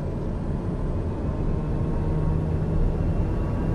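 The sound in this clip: Airplane engines roar during takeoff in a flight simulator video game, a steady, dense low rumble with a faint hum that holds an even loudness throughout, with no voices.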